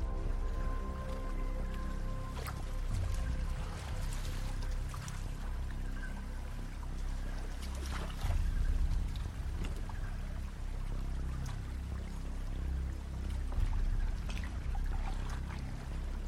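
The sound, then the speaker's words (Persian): Water sloshing and splashing as someone wades in holding a sword: a continuous wash of moving water with many scattered sharper splashes, steady in loudness throughout. “با شمشیر میره توی آب.”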